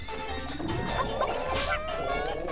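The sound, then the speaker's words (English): Crushing impact from the Pikmin video game as purple Pikmin crush a flower piranha plant monster: dense, continuous clattering and smashing effects mixed with jingly, ringing tones, at steady loudness throughout. “We're gonna... Yeah, crush it with purple Pikmin!”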